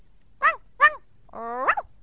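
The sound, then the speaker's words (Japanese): A giant puppy barks: two short, bright yips in quick succession, followed by a longer whining bark that slides upward in pitch, each sounding alone against near silence. “と吠える声が聞こえました。見ると巨大な子犬が丸い目を輝かせて片方の前足を突き出し、アリスに触ろうとしています。”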